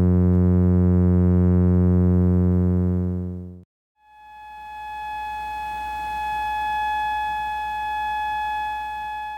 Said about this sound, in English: I have these two completely different types of electric fish in their tank, and they're just swimming along, and I inserted an electrode into the tank that I connected to a speaker